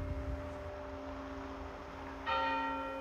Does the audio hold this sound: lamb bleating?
no